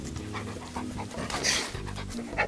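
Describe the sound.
A dog pants in quick, rhythmic breaths, fairly quiet and steady, with no talk over it.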